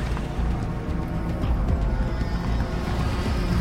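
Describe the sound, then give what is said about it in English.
Two Hummers drive slowly down a misty forest road, their engines a continuous low, rumbling drone that stays steady and unbroken throughout. “two Hummers drive slowly down a misty forest road.”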